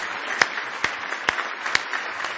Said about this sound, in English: Give Him another big hand clap of praise if you love Him.